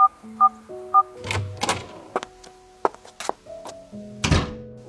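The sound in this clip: Electronic beeps from a door's keypad combination lock, three clear tones at the start, followed by mechanical clunks and thuds and a few more electronic tones as the door is unlocked and opened.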